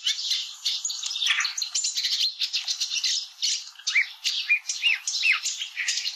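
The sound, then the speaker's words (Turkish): A sedge warbler sings a continuous stream of rapid, scratchy chattering notes mixed with thin whistled phrases and rattles, high-pitched and moderately loud, with no talk. “Şimdi Çalıkamışçını dinleyelim.”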